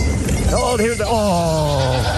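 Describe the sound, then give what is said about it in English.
Baby goats bleating in a long, wavering, voice-like cry that slides downward in pitch, loud and alone. “we're going to listen to about 2.5 minutes of Goat Kids. Yeah, Goat Kid. Let's bring them in. Bring in the goats.”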